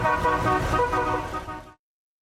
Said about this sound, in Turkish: Klasiklerin korna ve motor sesleri şehre uzun süre silinmeyecek çok özel ve renkli bir hatıra